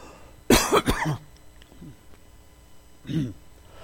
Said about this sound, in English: Excuse me, that went down the wrong pipe.